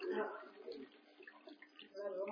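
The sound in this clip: Water pouring and splashing continuously, like a tub or basin filling, muffled and steady with a slight surge near the end.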